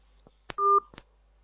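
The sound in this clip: A phone call is hung up with a few soft telephone clicks around a single short electronic two-tone beep. The sound is brief and faint, with silence before and after.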